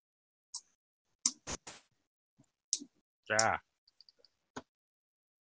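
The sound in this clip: Computer mouse clicking while initiative is entered for a tabletop role-playing game: a few sharp, isolated clicks at irregular intervals, with a short voiced sound partway through.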